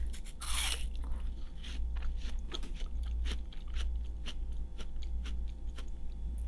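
Crisp biting and chewing of a crunchy, sweet food that was cut up at home, with many sharp crunches in an irregular rhythm, fairly faint and with no talking.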